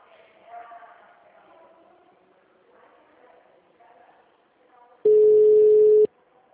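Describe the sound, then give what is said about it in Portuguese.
After a dropped call, a telephone line tone sounds as one steady, loud beep about a second long, following a stretch of quiet, muffled talk. “Ai, acho que a ligação caiu.”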